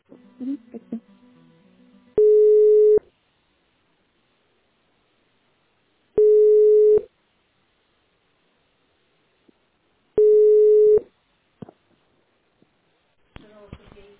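Three evenly spaced ringing tones on a telephone line while a call is transferred to a company's accounting department. Each short, loud burst comes about four seconds after the last, with quiet gaps and faint sounds at the start and end.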